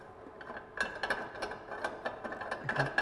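Many quick, faint clicks and ratcheting ticks come from a kitchen machine as its tube is unscrewed and its lock loosened.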